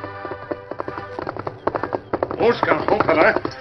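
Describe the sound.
Horse hooves gallop in a rapid, rhythmic clip-clop that grows louder and denser toward the end.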